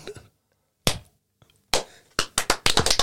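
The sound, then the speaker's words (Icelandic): Sharp hand claps recorded on camera: one isolated crisp clap after a short silence, a second clap after a pause, then a quick cluster of slaps and claps near the end. “ég ætla að klappa einu sinni”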